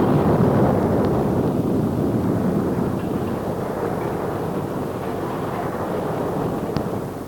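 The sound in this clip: A comedy sound effect of a bomb exploding in a package, heard as a loud, continuous roaring rumble with dense low noise that holds steady and eases only slightly over several seconds.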